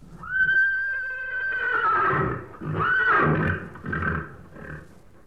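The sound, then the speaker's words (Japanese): A horse neighs loudly with a long, shrill, wavering whinny, then gives a few shorter whinnies and snorts, with no talking. “あ、この声はなんだ。聞いたことのない変な声だにゃ。 馬なのだ。 当たり。”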